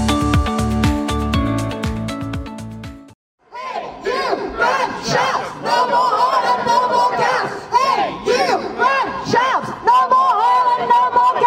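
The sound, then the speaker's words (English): A climate protest crowd outside Queen Elizabeth House in Edinburgh shouts and cheers loudly, with many overlapping voices rising in bursts of yells and whoops. The dense, continuous crowd noise follows a brief tonal opening. “I'm Ian Bruce outside Queen Elizabeth House in Edinburgh, where members of the Edinburgh Climate Justice Coalition, Extinction Rebellion and other movements have come to protest at the new energy”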